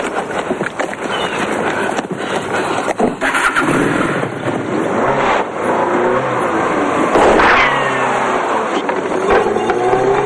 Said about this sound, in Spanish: Se incorpora y solo puede ver cómo el coche se aleja a toda velocidad.